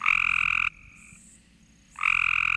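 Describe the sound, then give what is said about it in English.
A Cope's gray tree frog gives a loud, harsh, high-pitched buzzing trill lasting under a second. It breaks off for over a second, leaving quieter background sounds, then starts again with the same rapid buzz. “Here's the call of a Cope's gray tree frog.”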